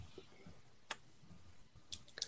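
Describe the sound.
A handful of ten-sided dice are rolled during a tabletop roleplaying game, making a few faint, sharp clicks and clatters against a quiet background.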